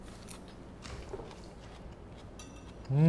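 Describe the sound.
Crisp crunching of fresh salad greens with dressing as someone eats. A few soft, irregular crunches sound quietly, and a short voiced murmur comes at the very end.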